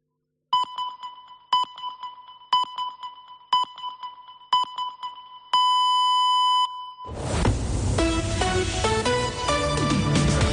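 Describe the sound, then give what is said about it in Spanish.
Radio time-signal pips mark the hour: five short, evenly spaced high beeps a second apart, then a longer final tone, followed by music. “Senyals horàries de 2:15 de la tarda d'aquest dilluns, de dia 7 de febrer del 2022.”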